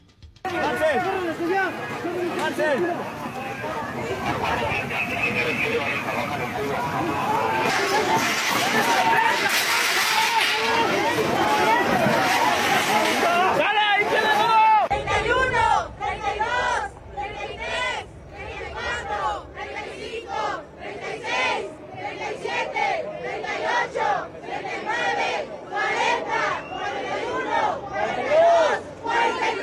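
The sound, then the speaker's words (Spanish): Protesters at a demonstration against violence and disappearances chant slogans. A loud, continuous crowd roar gives way to rhythmic chanting, with many sharp repeated bursts of massed voices. “Los manifestantes expresaron su inconformidad por la situación de violencia y desapariciones en el país mediante diversas consignas. Vamos a escuchar.”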